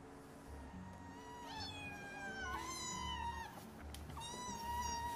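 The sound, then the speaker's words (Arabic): Cat meowing in a funny video of a mother cat and her kittens: several drawn-out, high, wavering meows rise and fall over a steady low hum. “القطة ما بدها ترد على صغارها. هيك هي ولا على بالها قاعدة عم تطلع فيهم”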